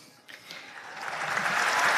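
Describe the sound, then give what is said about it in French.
Crowd applause at a papal event, starting faint and swelling into a broad sustained wash of many hands clapping that stays loud through the end. “Applaudissements évidemment de la foule.”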